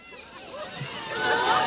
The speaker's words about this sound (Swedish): Ja, direkt i plurret. Och inte var han feg heller, utan han lagt sig på rygg. Och skvarpar omkring.